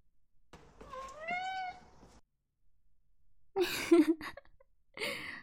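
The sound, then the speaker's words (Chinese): A white-furred, blue-eyed Maine Coon cat gives one drawn-out, wavering meow, then breathy, noisy bursts that start suddenly and come louder, with no talk. “这只大缅因呢，叫 Tiger，白毛蓝眼睛，很漂亮吧？它 一点都不怕人呐，你来摸摸。”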